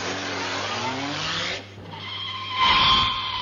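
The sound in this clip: A car drives off: a steady rush of engine and road noise dips briefly, then surges back louder with a high, squealing edge near the end. No voices are heard.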